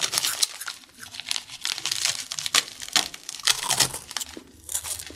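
Crinkling, tearing crackle as food is broken in half by hand, a few uneven bursts over about five seconds, with no talk.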